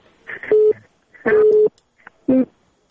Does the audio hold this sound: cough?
no